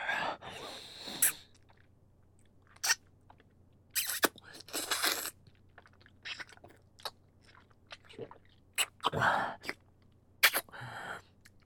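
Biting and chewing with wet mouth noises, heard as faint, irregular bursts of crunchy and smacking sounds separated by brief pauses.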